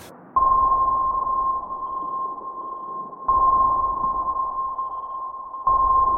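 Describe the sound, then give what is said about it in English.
Sonar pings: three loud, steady high tones, each starting sharply and holding until the next, at regular intervals over a low rumbling hiss. No voices. “Well, the sonar's kicking off, innit? Oh, it's a right noise.”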